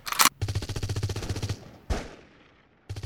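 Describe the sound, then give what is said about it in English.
Conventional machine gun fire in a firefight: a loud rapid burst of many shots, then a single heavier blast with a long fading tail, and another burst starting at the end. “Hold your fire, everyone. Those are conventional weapons. These guys were using laser weapons. It sounds like a lot of conventional weapon fire.”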